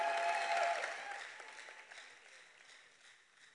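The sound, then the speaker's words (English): Applause from a church audience welcoming a testimony giver on stage, a dense burst of clapping that starts loud and gradually fades over a few seconds. “Oh, put your hands together for Oheniba.”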